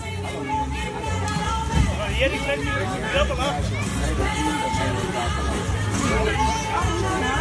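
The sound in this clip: Crowd hubbub at the Dutch national tent-pitching championship at Camping De Haar, a dense steady babble of many voices chattering at once with no single voice standing out.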